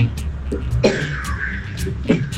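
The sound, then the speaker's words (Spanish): Coughing played back from a voice message: two prominent harsh coughs, one early and one near the end, with softer throaty sounds between them over steady background noise. “me mandó un audio tosiendo”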